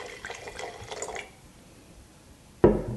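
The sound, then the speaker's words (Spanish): White Garnacha wine from Terra Alta is poured into a glass, a soft, faint liquid trickle lasting about a second before the sound falls quiet. “Voy a servir la copa y catamos juntos.”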